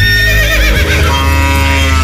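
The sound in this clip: An ox lowing on a farm: a loud, continuous call with a deep steady tone and wavering upper harmonics that fills about two seconds.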